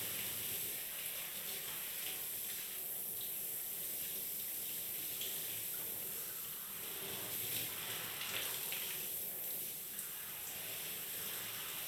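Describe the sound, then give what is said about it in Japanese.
Water runs steadily to rinse someone off during a bath, a continuous, even hiss of flowing water that lasts throughout. It is fairly faint, with no talk. “終わった？よし、じゃあ流してあげるね。”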